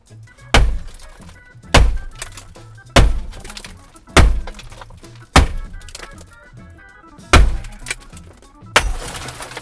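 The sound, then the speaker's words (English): A hammer repeatedly strikes a car window until the safety glass breaks: a series of sharp, heavy thunks spaced about a second apart, ending in a brighter, noisier crash of shattering glass. “Here was the sound of one of us, I think it's me, repeatedly bouncing a hammer off a window.”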